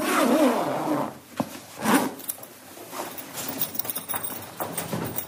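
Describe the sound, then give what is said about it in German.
A zipper rasps shut on a body bag in a prison basement, a few quick scraping zip strokes with soft rubbing and handling noises between them, fairly quiet and with no talk. “verschließt er noch einen Leichensack”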